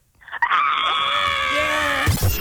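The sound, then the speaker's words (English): A person screams in one long, loud, sustained cry held at a fairly steady high pitch, ending abruptly in a breathy rush of noise. “Scream to get us out of here.”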